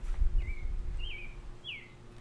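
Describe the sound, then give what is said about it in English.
A bird chirps outdoors with three short, faint, high calls, evenly spaced about half a second apart, over a low, rumbling background. “That bird really wants to be on the podcast. Desperately.”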